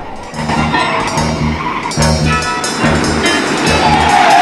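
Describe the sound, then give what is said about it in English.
A car approaching and pulling up alongside another car, its engine and road noise forming a steady, loud rumble that runs through the whole stretch with no break. “Another car approaches and Jim opens his door as the car pulls alongside his.”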